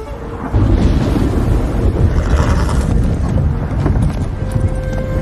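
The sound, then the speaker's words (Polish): Storm weather in a video game: a steady, loud wash of wind and thunder-like rumble, with rhythmic horse hoofbeats clopping throughout. “Idzie jakaś burza.”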